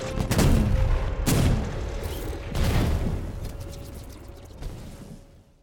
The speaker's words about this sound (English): So there's no live fire, but that doesn't last long because these spider machine gun things go rogue. And they take everyone out.